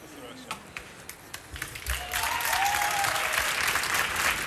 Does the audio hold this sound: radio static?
no